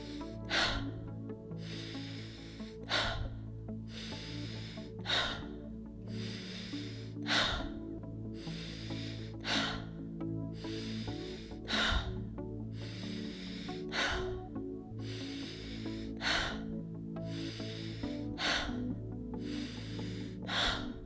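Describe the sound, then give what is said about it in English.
Deep, rhythmic breathing in and out during a guided Wim Hof breathing exercise, with many forceful breaths about every two seconds, fairly faint over a soft sustained tonal background. “And now breathe in and release. Breathe in and release.”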